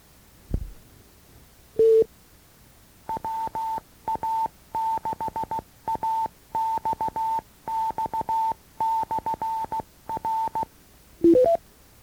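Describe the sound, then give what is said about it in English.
Telephone keypad tones key in commands to program a controller's ID message. One longer tone comes first, then many short beeps in tight clustered bursts, and a quick rising three-note chirp ends it. “To hear the whole message, before writing it into memory, enter star 2.”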